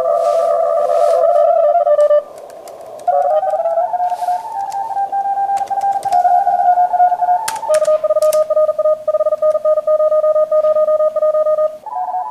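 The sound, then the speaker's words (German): Overlapping Morse code tones from a computer simulation of many amateur radio operators calling for brief contacts: several steady beeping pitches keyed rapidly at once, loud and continuous, with no speech. “Wenn das jetzt real wäre, dann sind das alles irgendwelche Funkamateure irgendwo in der Welt, die mit Ihnen einen ganz kurzen Funkkontakt machen wollen.”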